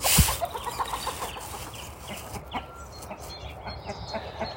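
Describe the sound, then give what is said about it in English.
A cockerel and a hen cluck as a hairy kitten chases them. Many short, agitated clucks come in an uneven run, loudest at the start and then continuing more faintly. “That is the noise of a hairy kitten chasing a cockerel. Or rather, a cockerel putting himself in the way of a hen.”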